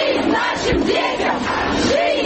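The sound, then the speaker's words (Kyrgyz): Protesters on the Arbat in Moscow chant anti-war slogans at a rally against mobilisation. Massed voices merge into a loud, continuous, rhythmic roar. “Москвада арбатка чыккандар балдарыбызга жашоо, согушка жок деп ураан чакырып турушту.”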